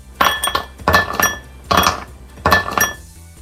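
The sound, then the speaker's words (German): Ice cubes falling into a glass: four bright clinking bursts, evenly spaced with short quiet gaps, each a quick cluster of sharp glassy hits. “ich würde immer noch sagen, das sind Eiswürfel, die in ein Glas fallen”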